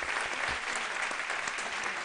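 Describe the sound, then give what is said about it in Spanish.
A crowd applauds in a steady, dense wash of clapping that holds evenly through the whole brief moment without rising or fading. “Y un aplauso para Carlas, para Victoria y para David”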